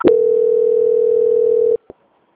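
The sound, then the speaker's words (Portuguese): A steady single-pitch telephone tone sounds on the line during a call transfer to another department. It holds at an even, moderate level for under two seconds, stops abruptly, and is followed by one short faint blip. “Eu peço que você aguarde um momento na linha, que eu vou transferir para o setor de qualidade”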